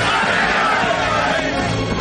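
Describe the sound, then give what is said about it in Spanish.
A band of men roars and cheers together as their lord raises his sword in a medieval adventure film, a dense, loud, unbroken crowd shout that holds steady throughout. “Meliagán alza su espada y sus hombres lo vitorean.”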